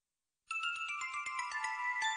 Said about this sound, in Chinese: 唔傾住啦，我依家打个视像电话俾姨妈先。